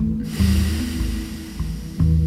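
A steady, breathy nasal exhale during a breathing exercise, a continuous airy rush lasting about two seconds over low sustained tones.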